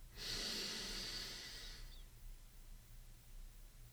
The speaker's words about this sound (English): Again, inhale for 3 seconds,